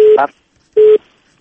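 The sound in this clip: Telephone line disconnecting: two short, loud, steady mid-pitched tones separated by a brief pause, then silence.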